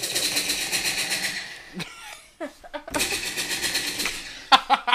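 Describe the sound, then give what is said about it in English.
A man imitates a machine gun with his voice, producing two long bursts of rapid, rattling pulses separated by a short stretch of speech. “You can do the machine gun effect? Yeah.”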